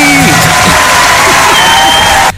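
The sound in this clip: Applause and cheering sound effect: a loud, dense crowd roar with clapping and rising whoops, sustained at full strength before cutting off abruptly at the end.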